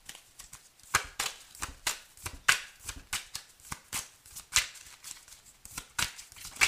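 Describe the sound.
Tarot cards shuffled by hand: many quick papery snaps and riffling flicks in an uneven rhythm, crisp and fairly soft, with no voices.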